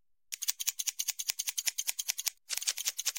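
Scissors snip hair during a haircut that trims only the tips, with many quick, crisp cuts in a steady rapid rhythm. A brief pause comes before the snipping resumes.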